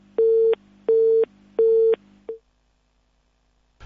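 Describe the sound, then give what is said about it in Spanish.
Busy tone after a dropped phone call: three identical steady beeps in an even on-off rhythm over a faint low hum, followed by a short click and then silence. “Bueno, se nos cortó una llamada que fue la de Augusto”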